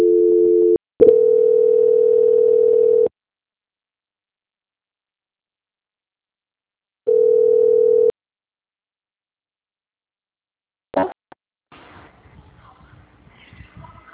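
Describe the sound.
Telephone line tones during a call transfer: a short tone, then a steady tone of about two seconds, silence, and another one-second tone, followed by a click and faint line noise.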